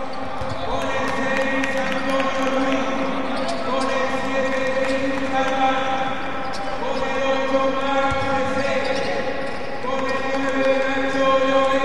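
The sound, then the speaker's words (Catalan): Basketball arena ambience during Club Bàsquet Prat player introductions: a steady, loud wash of crowd noise with ball bounces and sustained tonal sounds running throughout, voices mixed in. “Soltem l'ambient. Sí. Mira, presenten els jugadors del Club Bàsquet Prat.”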